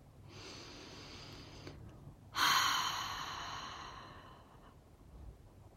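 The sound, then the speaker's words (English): A slow breath drawn in through the nose and let out through the mouth during a calming tapping exercise. A soft, long, airy inhale is followed by a louder, breathy exhale that gradually fades, with no talking. “And then just take a breath in through your nose, out through your mouth.”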